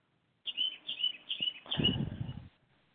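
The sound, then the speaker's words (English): A small bird chirps in a quick series of high, bright notes, followed by a brief burst of broad, low noise before it all falls quiet. “Nice little birdie in the background there.”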